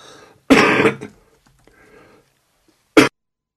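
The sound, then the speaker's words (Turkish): Coughing and throat clearing: a loud, harsh burst of about half a second, then a long quiet pause and one short, sharp cough. “affedersiniz, öksürük için.”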